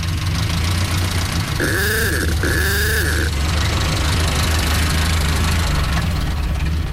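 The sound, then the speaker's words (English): Steady low rumble of an old 1931 Model A Ford car engine running, continuous and even throughout, with two brief tonal honks sounding midway. “I'm driving my old Model A Ford, 1931.”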